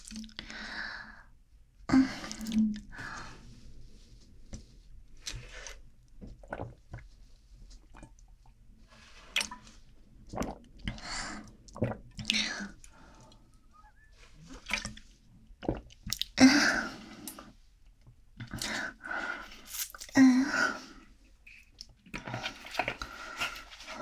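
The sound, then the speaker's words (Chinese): Faint wet gulps and swallows as someone drains a whole drink that was specially ordered. The swallows and soft sighs are spread irregularly across a long, quiet stretch. “好吧，那既然是你特意点的。那我喝光好了。”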